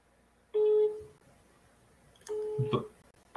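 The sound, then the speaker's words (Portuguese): Electronic telephone tones as a call is dialed and then rejected: a short steady beep, a pause, then a longer steady tone ending in a brief burst of noise, fairly faint. “Eu estou a ligar. Estou a ligar.”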